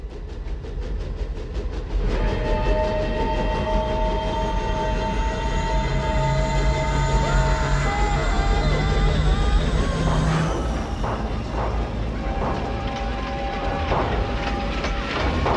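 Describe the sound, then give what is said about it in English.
An old New York Central passenger train locomotive rumbles through a tunnel on long-abandoned lines: a loud, steady low rumble that swells after about two seconds, with sustained high metallic tones ringing over it. “I think that was the old New York Central, City of Albany. Derailed in 1920, killed hundreds of people. Did you catch the number on the locomotive?”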